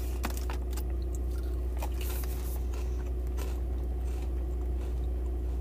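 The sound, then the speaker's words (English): Crunching of beef-flavored potato chips being chewed: many irregular, crisp crackles and bites over a steady low hum, with no talking. “Beef flavored Lay's. Let's go ahead and give them a try.”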